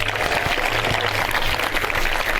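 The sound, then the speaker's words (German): Audience applause at a camp talk on solar energy research, a dense, steady wash of clapping from a sizeable crowd that stays loud throughout. “Erstmal einen Applaus, bevor ich das sage.”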